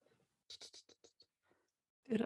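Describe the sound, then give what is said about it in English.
Scratchy writing strokes as notes are jotted down, a quick run of short scratches followed by a brief pause and one louder, denser burst at the end. “She is writing some notes down.”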